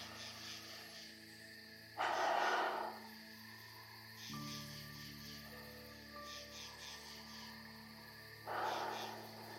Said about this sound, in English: we're going to take 3 deep and relaxing breaths.